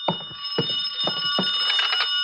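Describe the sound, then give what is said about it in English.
A telephone rings inside a room, a bright metallic bell tone with a few rhythmic strikes. It rings alone, without voices. “I could hear the phone ringing from somewhere inside, so I waited to see if anyone answered it.”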